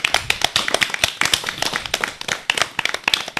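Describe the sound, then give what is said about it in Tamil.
Audience applause for a girl's Tamil pronunciation, a burst of many sharp, quick hand claps at an uneven pace. “ஜாய்ஸியின் Tamil உச்சரிப்புக்கு நாம் அனைவரும் பரத்த கரவொலி எழுப்பி நம் பாராட்டுக்களை தெரிவிப்போம்.”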